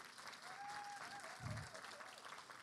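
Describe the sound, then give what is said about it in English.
Faint, steady applause from a church audience clapping for a speaker during a service, with a held musical tone briefly audible above it. “Come on, give it up for Brother Sean.”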